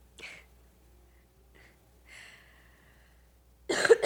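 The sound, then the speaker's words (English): Coughing, with no talk. A couple of faint, breathy coughs are followed by a louder, harsher burst at the end. “got a cough”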